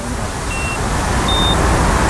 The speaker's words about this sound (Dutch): Er komt een pistoolvormig apparaat uit de koffer en dat is dan de ontvanger. En een hoog piepje betekent dat hij dicht in de buurt is. Kijk, nu hoor je hem lager.